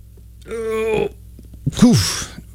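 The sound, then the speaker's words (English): A stifled sneeze: a drawn-out voiced 'ah' build-up, then a short choked burst with a breathy hiss as the sneeze is held back. Moderately quiet, with no other sounds around it. “I just fought off an insane sneeze. That just sat right in the bridge of my nose.”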